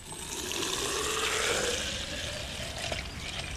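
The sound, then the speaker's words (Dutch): Water pours from a small watering can into a plastic bottle, making a faint, steady trickle and splash that lasts a few seconds with no talk. “Die vul ik met water.”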